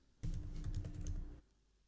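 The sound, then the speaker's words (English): Rapid keystrokes on a computer keyboard clatter in a quick, uneven burst of soft clicks lasting just over a second, fairly faint and with no talk over them. “I just typed in Indianapolis notable”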